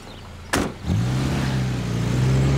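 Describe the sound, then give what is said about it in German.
A car drives away, beginning with a brief sharp burst of noise. A steady low engine drone follows and holds to the end, its tone rising slightly. “Warum lässt sie einfach wegfahren?”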